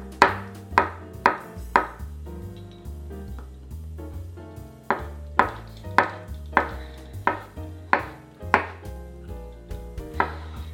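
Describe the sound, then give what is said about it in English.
A knife slices an overripe avocado into thin pieces, the blade tapping the cutting board in many steady, crisp strokes. A short pause breaks the run before the even rhythm resumes. “This avocado is a little overripe, but it's still very good. And then we'll just slice this into thin pieces.”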